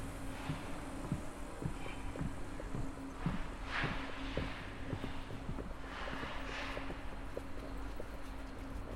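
Footsteps walking down, descending from about 5.6 to 3 metres above sea level at a dig site, with many steady, evenly spaced steps over a constant low hum.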